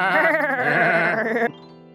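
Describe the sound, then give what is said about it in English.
A goat's bleat, one of a small newly bought herd being led back to the farm: a single sustained, wavering nasal cry with a strong vibrato that ends abruptly after about a second and a half, leaving only a faint tail. “Come on, goats, let's head back to the farm.”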